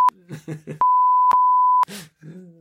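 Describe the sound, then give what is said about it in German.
A steady, high-pitched censor beep cuts over speech: one long beep lasting about a second and brief beeps at the start and end. Fragments of talking voice fill the gaps between them. “das piepen wir übrigens, was ich da gesagt habe.”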